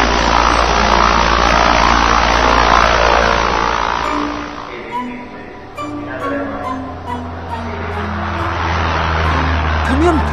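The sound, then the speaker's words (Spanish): A propeller airplane engine running, a 1918 Bristol aircraft: a loud, steady drone with a deep low hum throughout that eases slightly midway. Voices speak over it during the second half. “Dagoberto iniciaba el primero de los protocolos para partir a bordo del Bristol 4988”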